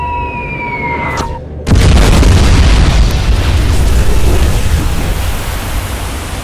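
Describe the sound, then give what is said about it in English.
A bomb strikes the stern of a battleship in a loud explosion: a falling whistle, then one sudden, powerful boom that rolls into a long, roaring rumble. “And the other strikes further astern with an incredible boom.”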